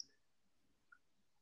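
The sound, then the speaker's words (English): A single soft computer mouse click on a link, one brief tick in near silence. “I'd have to click through, so I'll do that real quick.”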